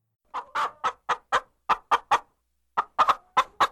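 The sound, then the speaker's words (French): Hen clucking in a classroom: a quick series of sharp, clipped clucks, a brief pause, then another burst of rapid clucks, all fairly loud and without talk. “Une poule entre dans la salle de classe en caquetant, accompagnant ainsi le chant collectif.”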